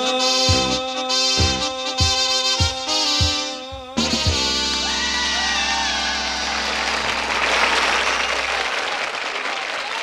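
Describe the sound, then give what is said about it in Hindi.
Audience applause breaks out after a few seconds of staccato instrumental chords, then dense, even clapping carries on strongly to the end. “हम एक ऐसे artist हैं जो कि आपके ताली के सिवाय हम जी नहीं सकते हैं. तो आपके हर एक ताली हमारे लिए आशीर्वाद होती है.”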